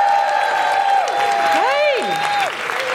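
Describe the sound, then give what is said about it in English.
An audience welcomes a guest with steady applause and loud whooping cheers, whose whoo calls rise and fall over the continuous clapping. “Please put your hands together and make incredible whooing noises for the wonderful Dr. Kirsty Sedgman!”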